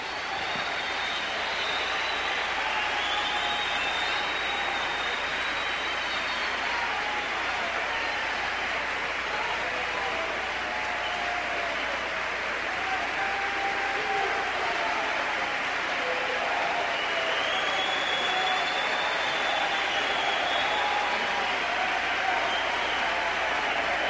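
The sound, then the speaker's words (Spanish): Sustained applause from a church audience during a preaching service, a loud, unbroken wash of many hands clapping that holds steady at an even level for the whole long stretch. “Le vamos a dar un aplauso bueno y grande.”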